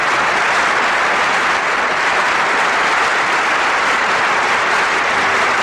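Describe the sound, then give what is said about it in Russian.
Applause fills a hall before a song performance: a dense, steady, loud wash of clapping with no pauses from start to finish. “И аплодисменты в зале обычно звучат уже перед началом исполнения.”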